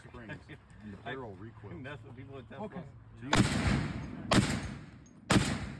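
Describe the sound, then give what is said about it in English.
Three loud Barrett rifle gunshots from a played video clip ring out about a second apart, each a sharp, heavy crack with a short decay, following a stretch of people talking. “why don't we send them over the clip of me also shooting the Barrett? Because that was a bunch of fun. Yeah. Going hot.”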